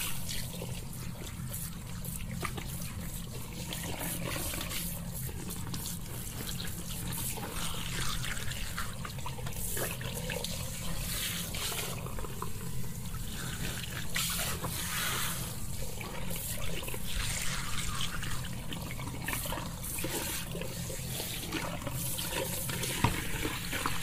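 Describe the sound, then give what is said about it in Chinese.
A toilet flushes with a long, steady rush of water that carries on at an even, moderate level, with trickling and dripping over it. “冲水了哦。”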